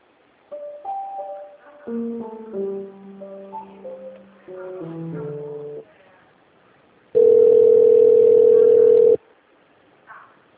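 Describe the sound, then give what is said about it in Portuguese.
A telephone line rings while a call to a bookstore's customer service line is transferred: phrases of electronic melodic tones give way to a single loud, steady ringing tone lasting about two seconds, then a faint brief sound. “Para falar sobre produto, aguarde um instante, estamos transferindo a sua ligação para um de nossos atendentes.”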